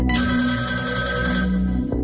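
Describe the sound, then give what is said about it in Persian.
Telephone ringing on a radio station's voicemail line, a loud, continuous electronic ring with a bright harmonic tone, sounding alone for about two seconds. “اول به صدای شنوندهی گوش میکنیم که صبح امروز از شهرستان ممسنی با پیامگیر رادیو فردا تماس گرفته است”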